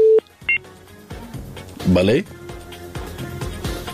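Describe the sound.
Telephone tones as the next caller's line is connected: two short, sharp beeps at the start, followed by people talking over a phone line.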